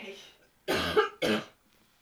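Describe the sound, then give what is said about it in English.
Two forceful human coughs in quick succession, the first longer and rougher, the second shorter, with near silence before and after. “let me give a good cough.”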